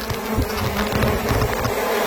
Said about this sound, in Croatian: Ovo je uživo sa malog Lošinja. I ne šalim se. Dobili smo video. Puna košnica pčela.